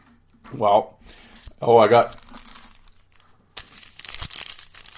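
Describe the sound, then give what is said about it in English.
A wrapper on a pack of 1991–92 Upper Deck hockey cards crinkles and tears open in a burst of sharp crackles over the final second and a half, after a couple of brief vocal sounds. “Yes, more hockey cards. This is the gimmick now. It's like I open hockey cards at the start of every episode.”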